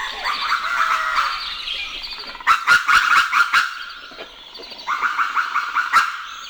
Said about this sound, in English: This is what sunrise in Sonoma Valley, California sounds like.